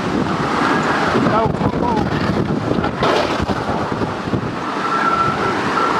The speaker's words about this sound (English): Fixing a tire in a hurricane, man. We've got debris, piece of sheet metal right behind us flying by.